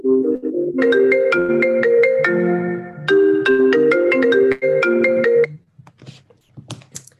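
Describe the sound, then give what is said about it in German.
A phone ringtone announces an incoming call with a bright, repeating melodic pattern of tones, loud and steady for several seconds, then stops, leaving only faint scattered sounds. “Ich kriege gerade einen Anruf.”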